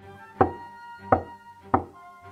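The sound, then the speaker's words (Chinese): Three knocks on a door, evenly spaced and unhurried. Each is a sharp, hollow rap over a steady, soft musical background. “正想喝止，门外传来敲门声。”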